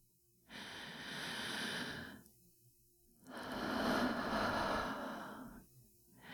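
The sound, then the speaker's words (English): Slow, deep breathing: two long, soft, airy breaths with a pause of near silence between them, quiet and unhurried. “Breathe in. And out.”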